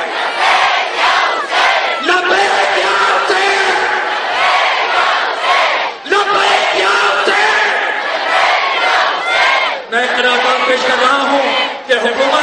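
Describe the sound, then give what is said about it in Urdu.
A large crowd chants the slogan Labbaik Ya Hussain in loud unison at a gathering. Several long, powerful chant phrases are separated by brief dips. “اور اب بلند تر نعرہ لگائیے گا لبیک یا حسین.”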